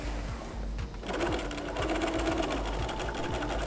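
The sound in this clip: A sewing machine stitches fabric, backstitching near a corner, with a fast, steady mechanical chatter of rapid needle strokes and a brief dip in the rhythm early on.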